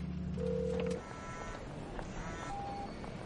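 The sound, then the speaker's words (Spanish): Telephone number being dialed in a tense thriller scene, a few steady electronic keypad tones, the first long and fairly loud, a later one shorter and higher, over a faint low background. “marca la última llamada”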